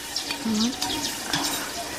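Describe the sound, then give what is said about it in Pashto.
Onions fry in cooking oil with a soft, continuous sizzle and occasional stirring scrapes, moderate in loudness. “غوړي خو ډېر نه دي، خو زه وایم چې پیاز به پکې ډېر نه سوځو، که څنګه؟”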